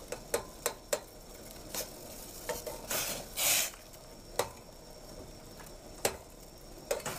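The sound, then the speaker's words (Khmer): Dried chillies stirred in a pan so they break apart: many sharp, irregular clicks of a utensil against the pan, with a short hissing burst midway, without voices. “យើងកូរម្ទេសក្រៀមនេះឲ្យវាបែក”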